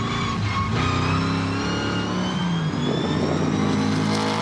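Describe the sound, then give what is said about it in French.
A V8 engine revs in a mostly stock rally-style car with light engine preparation. It gives off a loud, continuous, harmonic-rich drone whose pitch shifts and climbs slightly toward the end, with no voices. “Tout de suite, il y a quelque chose qui m'enchante des oreilles. C'est le son du moteur V8.”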